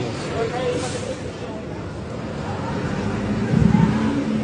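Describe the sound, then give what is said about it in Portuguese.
A bus drives along a street with a steady, low engine drone. Muffled crowd babble runs underneath, and the sound swells briefly louder near the end. “E o ônibus andando.”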